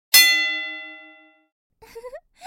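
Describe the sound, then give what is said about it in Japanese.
A gong struck once to signal the start of a match gives a bright metallic clang, then a long, steady ringing decay lasting about a second. A short burst of voice follows after the ring dies away. “ゴングは勝負の始まりですよ。奇襲をかけても誰にも文句は言えません。”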